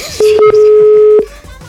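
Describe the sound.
A telephone number being dialed produces a clear electronic tone held for about a second, loud and steady in pitch, with a few short softer sounds before and after it.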